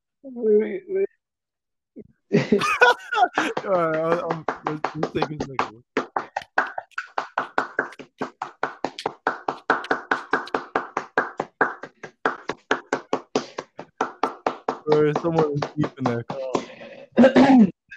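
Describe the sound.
People clapping for the NHS: sharp, evenly spaced hand claps keep a steady rhythm for many seconds. Voices talk before the clapping and again near the end.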